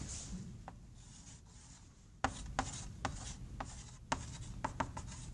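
Writing on a board during a lecture on limits and transfer functions: a series of short, scratchy strokes and taps, faint and irregular, with no talking.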